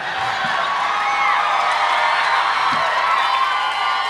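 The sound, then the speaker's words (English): People cheer in a steady, noisy burst of crowd sound with scattered whoops and shouts that holds at an even level for a few seconds. “Oh, don't cheer.”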